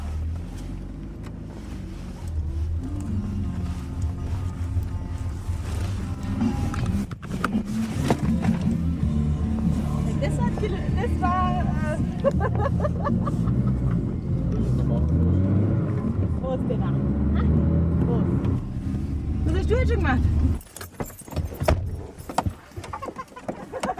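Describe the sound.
A car's engine gives a steady low rumble under people talking. It cuts out near the end, leaving scattered quieter sounds.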